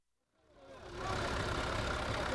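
Idling bus engines at the Gaza City bus station: low rumbling engine noise swells up from near silence over the first second, then holds as a steady, dense drone.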